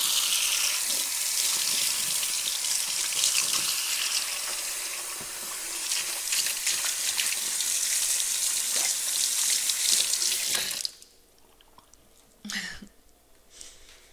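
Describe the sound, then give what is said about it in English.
Tap water runs steadily into a kitchen sink as hands are washed between cooking steps, a full rushing stream for about eleven seconds before it shuts off, followed by a brief knock. “We just gotta make sure that we're washing our hands in between.”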